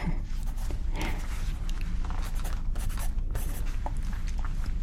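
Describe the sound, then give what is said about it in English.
Someone writes, and the pen scratches on paper in continuous short strokes. The scratching is fairly loud and steady, with no talking over it. “Now, my question is going to be, just a second, I finish writing this.”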